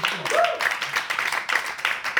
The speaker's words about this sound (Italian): No, dai, bravo Nick Porta, un altro applauso per lui.